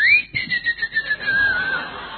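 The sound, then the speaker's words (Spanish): Steam escaping through a pressure cooker's valve makes a single sustained high whistle that drifts slightly lower in pitch over about two seconds. “Porque chifla. La olla a presión en el momento que vos la tenés que sacar, chifla, te hace”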